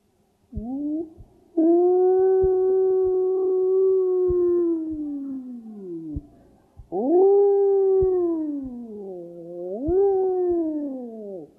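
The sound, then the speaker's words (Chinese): A wolf howls on a snowy winter night behind a house. Long, loud, sustained tonal howls with wavering pitch follow one another, with brief breaks between them and no voices. “这是那个狼啊，在冬天下了雪”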